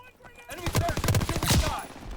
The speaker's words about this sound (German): Mal andere Waffe ausprobieren.